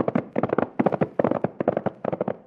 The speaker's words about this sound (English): those shots came from dead ahead of us.